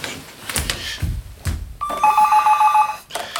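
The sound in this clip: A telephone rings as a call is being transferred. A single bright, warbling electronic ring lasts about a second, with a few brief knocks and rustles before it.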